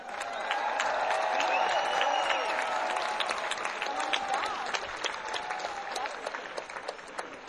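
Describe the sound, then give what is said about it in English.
Audience applause welcoming the producer of a tribute concert, the City Winery founder: dense, steady clapping from a large crowd that holds strong and then thins slightly toward the end. “Please welcome the producer of tonight's show, City Winery founder, Michael Dorf.”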